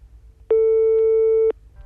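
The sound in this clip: A telephone line tone follows dialing a number on a phone with a rotary-style dial. One loud, steady, mid-pitched tone lasts about a second and ends abruptly.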